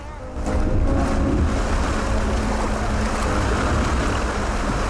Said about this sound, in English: The water knocks them off their feet, quickly reaching the Foreign Secretary and Robert and submerging them too.